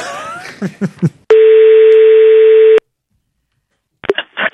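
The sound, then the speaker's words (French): A telephone line tone while calling a listener: a single steady, level tone of about one and a half seconds, followed by a short silence, with people talking just before and right after it. “Alors, on l'appelle, Stéphane.”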